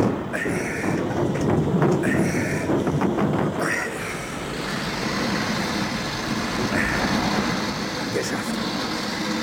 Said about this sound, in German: John, schließen Sie die Schleuse. Fahren Sie die Rampe hoch.